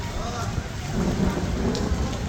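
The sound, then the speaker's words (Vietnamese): Rain pours onto a flooded street where motorbikes and cars wade through the water, making a dense, continuous hiss that stays fairly loud and steady from start to end. “Hơn 8 giờ 30 phút tại đường Nguyễn Văn Khối, gần đoạn giao Lê Văn Thọ, quận Gò Vấp, trời vẫn đổ mưa, hàng loạt xe máy và ô tô vẫn bị bõm đi qua đường ngập.”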